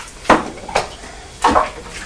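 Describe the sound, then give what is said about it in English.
A lid knocked against a child's cartoon cup as someone tries to get it to stay on, a few sharp clattering knocks at uneven gaps, fairly loud with no talk. “I can't get the lid to stay on top.”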